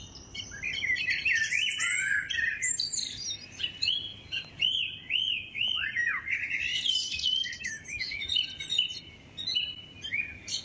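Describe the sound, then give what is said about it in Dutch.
A blackbird and a song thrush sing together outdoors near Kampen, trading bright, varied whistled phrases and chirps in a continuous, overlapping stream of birdsong with no talking. “Maarten Oranje stuurt ons vanuit Kampen een duoconcert van Merel en Zanglijster”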